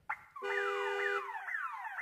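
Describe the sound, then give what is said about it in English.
A parked car's alarm goes off on a city street: a short chirp, then a loud electronic wail with a steady high tone beneath repeated falling sweeps that restart every half second or so, with no voices. “Hold on. That's my car alarm.”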